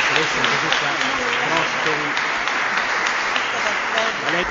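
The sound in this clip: Audience applause thanking two presenters at the close of a guided talk: a dense, steady clatter of many hands clapping at even loudness throughout, with voices mixed in.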